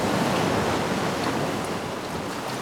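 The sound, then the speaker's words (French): Sea waves wash in a continuous, loud surf roar of broad hissing water noise that barely shifts in level from start to end. “Vous n'avez pas le temps d'aller voir la mer.”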